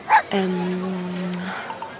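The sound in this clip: A dog gives a short yap, then a long, steady, tonal whimper lasting about a second before fading.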